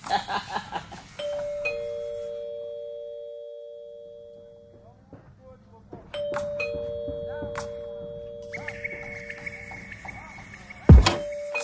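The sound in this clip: A doorbell rings repeatedly with long, steady electronic tones, separated by a quieter pause and followed by a loud thump near the end. People talk intermittently in between.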